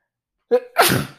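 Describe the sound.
A single human sneeze: a short voiced catch of breath, then a loud, breathy explosive burst that fades quickly, heard alone after a stretch of silence.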